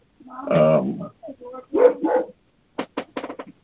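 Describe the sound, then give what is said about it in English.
A dog barking at home while someone is at the door: several irregular barks, starting with a longer, strained bark and ending in a quick run of short, sharp yips. “I don't know if you hear my dog barking, but he's distracting me.”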